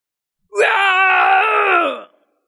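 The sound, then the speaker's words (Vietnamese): A single fierce, roaring scream from a man under attack. It rises in sharply, holds loud and alone for about one and a half seconds at a steady pitch, then sags slightly before cutting off. “Một tiếng gào thét dữ dội xé lồng vang lên.”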